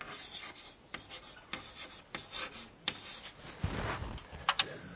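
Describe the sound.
Handwriting scratches quietly along as a pen or marker forms words, with a series of short strokes and sharp taps in an uneven rhythm, ending in a denser burst of rubbing strokes.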